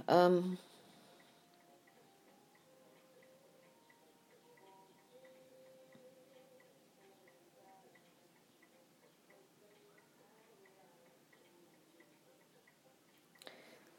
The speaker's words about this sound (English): I like to have a ticking clock. I think it makes a home a home